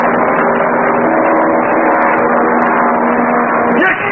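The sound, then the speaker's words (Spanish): A low-flying airplane's engine drone as it comes back past, a loud, steady roar that fills the whole clip and shifts in tone just before the end. “mira al avión que regresa volando a baja altura. ¡Ahí viene otra vez!”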